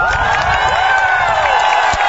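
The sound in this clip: Audience applause and cheering for a children's choir at a concert in Sofia, a dense, loud wash of clapping and crowd voices that holds steady throughout.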